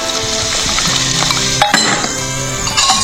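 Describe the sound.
Soda being poured into a glass, a continuous bubbly fizzing hiss with ringing glass tones and a few sharper clinks running through it, steady throughout with no talking.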